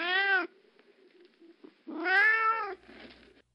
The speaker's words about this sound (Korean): 어디서 온 건지 비쩍 마르고 더럽고 하얀 고양이가 창밖 물통 뚜껑 위에 앉아 있는 걸세.